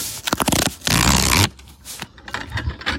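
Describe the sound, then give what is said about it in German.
Paper tearing and rustling as an envelope is opened for a murder-mystery case game: a few short scratchy rips, then a longer loud sustained tear, followed by softer crinkling and handling. “öffnet jetzt den Umschlag”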